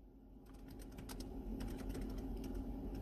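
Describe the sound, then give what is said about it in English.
Fingers type on a computer keyboard, making many quick, irregular key clicks that sit faintly over a steady low background hum. “trying to type”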